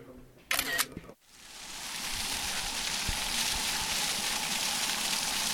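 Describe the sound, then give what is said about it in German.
A camera shutter fires in a quick, sharp burst of a few mechanical clicks, followed by a brief hush and then a steady, hissing background noise. “Wir machen ein Foto? Gute Idee.”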